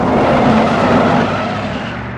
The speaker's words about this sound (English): Leo drives off, leaving Bob alone on the road.